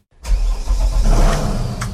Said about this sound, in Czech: S vedoucím poříčního oddělení Slapy Davidem Bernardem teď tedy vyjíždíme na člunu